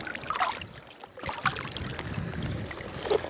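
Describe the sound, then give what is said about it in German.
Rain beginning to pour down outdoors in Iceland onto covered gear and a bag: a dense, steady hiss with scattered louder patters and splashes running through the whole clip. “Jetzt fängt es richtig an zu regnen, so eine Scheiße.”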